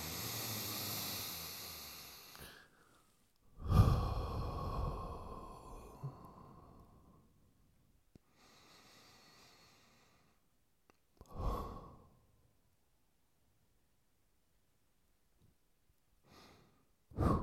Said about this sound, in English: Let's take 3 deep breaths in on that note.